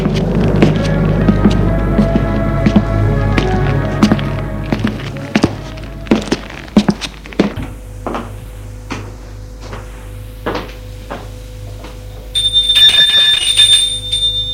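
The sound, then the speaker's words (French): A doorbell rings at an apartment door in a late-19th-century building, preceded by several dull thumps and knocks, with a bright, buzzing ring sounding near the end. “Il a sonné chez elle.”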